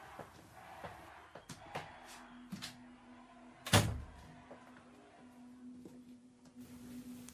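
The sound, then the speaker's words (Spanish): A door shuts with one sharp, heavy thud midway, preceded by a few faint knocks and clicks over a quiet background hum. “Cierra la puerta cuando salgas.”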